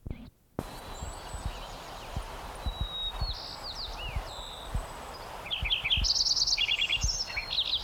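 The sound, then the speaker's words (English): Lincoln's sparrow song: a series of high, thin chirps and whistled notes building into rapid, bubbly repeated trills near the end, with soft low thuds scattered underneath. “Lincoln Sparrow number 3.”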